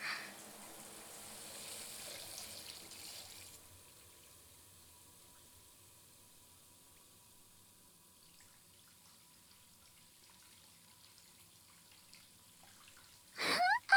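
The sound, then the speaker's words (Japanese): Water from a shower head running into a basin for a foot bath: a faint, steady hiss of flowing water at the start that drops to near quiet, then a brief louder splash at the very end. “シャワーヘッドもこのままたらいに沈めれば、”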